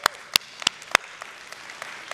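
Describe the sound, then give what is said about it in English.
Applause from a church audience begins with a few sharp, loud individual claps and then thins into lighter, scattered clapping over a faint, steady crowd hiss. “Pause for applause.”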